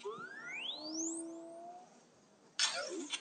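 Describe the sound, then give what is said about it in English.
Electronic beeps and chirps from a Sphero BB-8 toy robot driven from an iPhone: several rising whistling sweeps and warbling tones, followed near the end by a louder, noisier burst of chatter. “That's the sound of my little Sphero.”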